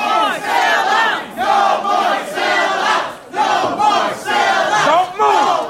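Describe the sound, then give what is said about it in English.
A crowd chants a protest slogan in unison while being forced out of a meeting room, many voices repeating the same short phrase in a loud, steady rhythm with brief dips between repetitions. “As members of the public were forced from the room, you can hear them chanting, "No more sellouts."”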